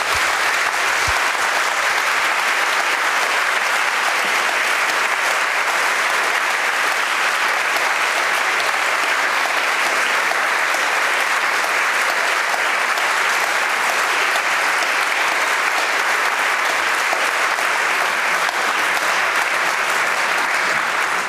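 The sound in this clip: Sustained audience applause closes a live public dialogue event, a dense, steady wash of many hands clapping at an even loudness from start to finish, with no voices heard over it.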